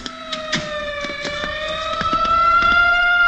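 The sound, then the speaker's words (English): An ambulance siren on a city street, a steady wailing tone that climbs gently in pitch and grows slightly louder throughout, with scattered clicks and traffic noise beneath it. “The ambulance heading for the Park Hamilton.”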